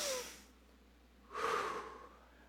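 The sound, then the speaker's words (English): Deep breathing during a guided morning moment in a church message: a short airy breath fading at the start, then after a pause a longer, louder rushing breath that swells and trails off. “Just take a deep breath in with me this morning. Can you do this?”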